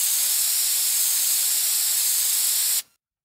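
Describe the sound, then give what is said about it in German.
A can of hairspray sprays in one continuous, loud, bright hiss lasting nearly three seconds, then cuts off abruptly into silence. “Haarspray. Ah. Genau. Eine Dose Haarspray. Zwar keine ganze Dose, aber immerhin.”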